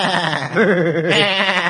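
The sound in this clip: A human voice imitates a goat bleating in one loud, sustained, quavering cry with a strong wavering vibrato, heard alone for nearly two seconds.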